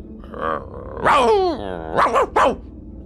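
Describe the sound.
A dog growls and barks fiercely: a drawn-out, harsh snarling bark followed by a quick burst of a few short, loud barks.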